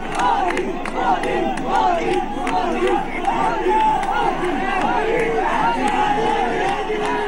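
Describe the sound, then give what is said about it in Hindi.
Party workers from the BJP chant and shout slogans at a political road show in Bijnor. Many voices merge into a dense, continuous crowd roar with rhythmic shouted bursts. “Bijnor में road show के दौरान कुछ जगहों पर BJP कार्यकर्ताओं ने नारे लगाए और कांग्रेस कार्यकर्ताओं के साथ उनकी झड़प भी हुई।”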